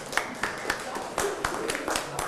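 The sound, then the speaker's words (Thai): Scattered hand claps for a classmate during a lesson, sparse, irregular sharp claps at a low level, with faint voice-like sounds beneath them. “เยี่ยมมากปรบมือให้เพื่อนหน่อย”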